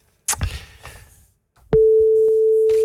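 A telephone tone while placing a call: a few soft thumps and clicks, a short pause, then a loud, steady single-pitched tone that holds unbroken to the end.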